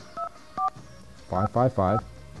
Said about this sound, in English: Let's first try it going to 724. Let's first get a dial tone.